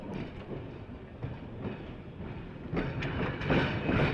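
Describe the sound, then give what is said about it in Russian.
A train arriving at the railway station in Pechory: a steady low rumble with faint rhythmic clicks throughout, growing noticeably louder over the last part. “Поезд Москва-Таллин прибыл на вокзал города Печоры Псковские около 5 часов утра.”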